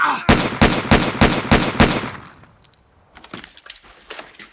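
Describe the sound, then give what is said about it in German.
Gunfire: six sharp, loud bangs in quick succession, followed by a fainter scattered clatter as the burst dies away. “Hat die jetzt geschossen?”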